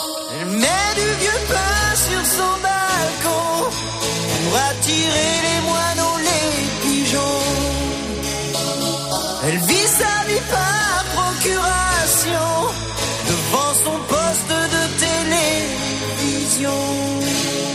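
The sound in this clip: A French-language pop song from a film soundtrack, with sung vocals over a full band, plays loud and steady throughout without a break.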